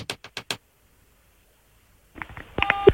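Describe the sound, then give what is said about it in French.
A phone number is dialed to place a call: four quick, sharp key tones, then a pause of silence, then further electronic telephone line signals that grow louder toward the end. “on y va, c'est parti, Lydia, on appelle”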